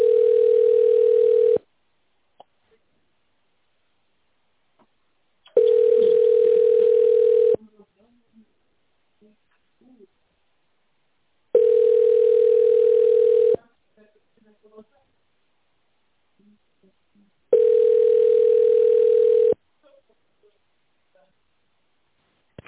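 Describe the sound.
A telephone ringback tone plays while a call is transferred to a company's accounting department. Four long, steady beeps of about two seconds each are separated by longer silences, loud and clear with nothing else over them.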